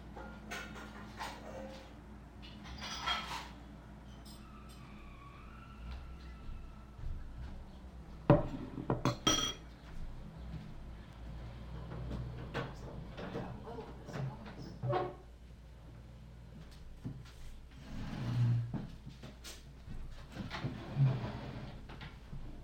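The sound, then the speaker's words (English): A bowl is taken out of a kitchen cupboard, giving soft knocks and a brief cluster of hard clattering clicks, with quieter handling noises and people talking around them. “I'll get a bowl too, because I want some cottage cheese.”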